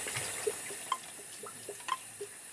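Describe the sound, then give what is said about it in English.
Faint running water from a tap, a soft steady hiss with a few light drips and splashes scattered through it. “let me just get the water running for you.”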